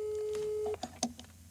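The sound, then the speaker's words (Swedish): A steady single-pitched telephone ringback tone plays while a call is being placed. It holds for under a second and cuts off abruptly, followed by a few brief, faint sounds. “Vi ringer Anneli Rydé.”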